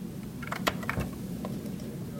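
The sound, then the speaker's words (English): Computer keyboard typing by an engineer at a Boston LED design company: a few soft, scattered key clicks over a low, steady background hum. “An engineer types a few clicks at a keyboard and lights up pinpoints of red, green, and blue LEDs contained in a dozen 4-foot-long plastic tubes.”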